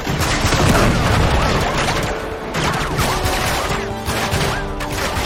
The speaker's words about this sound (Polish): O matko, jakaś snajperka.